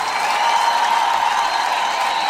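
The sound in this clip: Audience applause at a music show: a dense, steady crackle of many hands clapping at even loudness throughout, with no talk over it.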